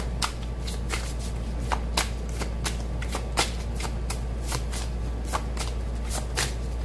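Tarot cards being shuffled, with many quick, crisp riffling bursts and soft card-slapping clicks repeating at an uneven rhythm over a low, steady hum.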